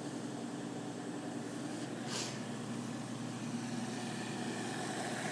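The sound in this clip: A front-loading washing machine draws in water while it fills, making a steady rushing hum at an even level. A brief brighter hiss cuts in near the middle.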